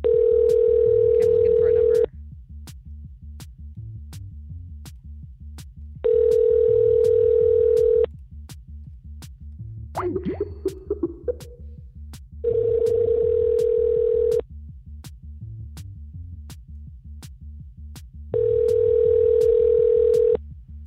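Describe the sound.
Telephone ringing tone after a number is dialed: four steady two-second tone bursts separated by longer pauses, over a constant low hum, with a brief scratchy noise midway.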